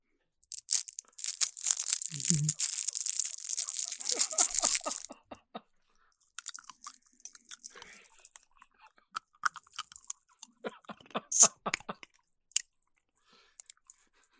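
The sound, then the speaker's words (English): A cinnamon candy wrapper crinkles busily for about five seconds. Many soft, irregular chewing and crunching clicks with short pauses follow, quiet and without talk. “So I'm going to have myself a cinnamon candy, if that's okay.”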